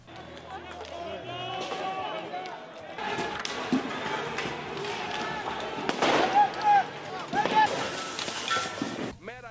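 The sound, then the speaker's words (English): Bangs and crackling blasts ring out at a violent street protest in central Athens, where petrol bombs are hurled and police answer with stun grenades and tear gas. Loud, irregular bursts rise over a continuous crowd roar. “Black-masked protesters hurled petrol bombs at police, which responded with stun grenades and tear gas.”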